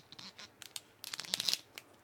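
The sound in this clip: Plastic seal being torn off a bottle of Dragon hot sauce from Silk City Hot Sauce: faint, crinkly rips and scratches in short uneven bursts, thickening into a quick cluster of crackling tears before one last small rip.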